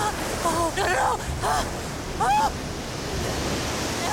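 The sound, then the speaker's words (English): Waves crash in a constant, rushing wash of surf noise. Brief voice sounds rise over it a few times in the first half, then the churning water continues alone. “A large wave hits her and she nearly falls.”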